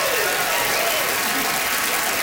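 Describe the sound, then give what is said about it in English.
Applause from a theater audience at the Gas Station Theater in Winnipeg, a dense and steady wash of clapping that holds at an even level from start to finish. “Honestly, Winnipeg, your applause is all the recognition we need.”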